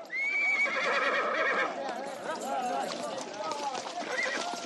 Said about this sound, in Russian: Крупно конские ноги, идущие по мелководью.